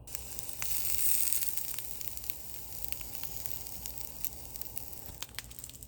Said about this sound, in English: we're just going to put them on the grill pan. So we're heating up the grill pan and we're going to do that.